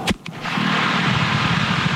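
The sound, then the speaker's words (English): A dynamite blast breaks up rock in the way of a 6.5-mile water pipeline. A sharp, loud crack and a second quick bang lead into a sustained, broad rumbling roar. “To install one 6.5-mile pipeline, workmen set off a dynamite blast last week, breaking up rock that was in the way.”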